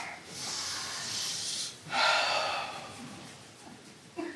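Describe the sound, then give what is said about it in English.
An audience draws a long, airy deep breath together, then lets it out in a second soft rush of breath before a quiet moment. “All right, everybody take a deep breath.”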